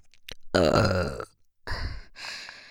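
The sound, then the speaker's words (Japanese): A woman belching close to the microphone in an erotic ASMR setting: a long, low, rumbling burp, a pause, then a second shorter burp trailing off into a fainter breathy tail. “どっちが好きですか？もちろん、ゲップですよね。”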